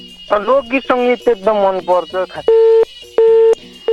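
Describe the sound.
A telephone busy tone sounds after a caller's call cuts out on a disturbed line: a voice over the phone line comes first, then two steady, evenly spaced pulses of a mid-pitched tone.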